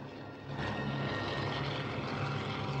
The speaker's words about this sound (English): brings the helicopter down lower as they approach the top of the plateau.